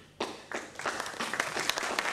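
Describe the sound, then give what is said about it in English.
Applause from an audience greeting a new website unveiled during a presentation. After a brief quiet it starts abruptly, then swells into dense, steady clapping that holds to the end. “I would like you to applaud that.”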